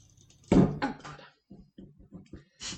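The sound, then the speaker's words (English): Struggling to open a wine bottle with a troublesome wine opener: two rough scraping bursts, then a series of short, dull knocks and creaks in an uneven rhythm, ending with a brief hiss. “I think this wine opener might be broken. I had trouble with it the other week.”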